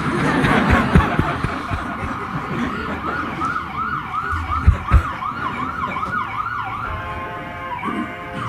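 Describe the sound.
An emergency vehicle siren passing outside, wailing in repeated rising-and-falling cycles over a low rumble, with a few low thumps and no clear talk.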